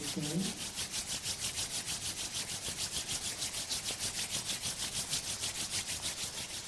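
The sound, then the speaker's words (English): Palms rubbed briskly together during a relaxation exercise, making a fast, even rhythm of many soft swishing strokes that runs steadily from start to finish, with a brief voice fragment at the very beginning. “Fold your palms. Spojte si dlane. Rub your palms.”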